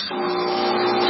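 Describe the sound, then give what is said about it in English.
An espresso machine brewing gives off a steady, dense mechanical hum with a thin constant whine on top, holding an even loudness from start to end. “That's the sound of my espresso machine”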